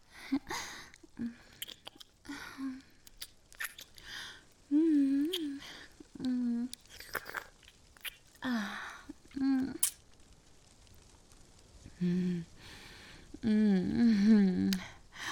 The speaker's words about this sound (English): Yeah, I'm just going to have a little taste.